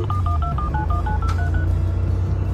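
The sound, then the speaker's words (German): A touch-tone telephone dials a call with a quick run of many short, evenly paced dual-tone beeps over a steady low hum. The beeps stop and the hum continues alone. “Anruf Carola. Llame a Carola.”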